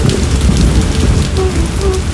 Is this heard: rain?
yes